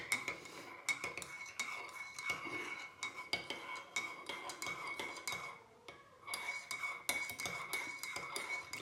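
Cups and spoons clinking as people sit down to coffee, a faint, busy run of many irregular metallic taps, clicks and light clatters, with no talk.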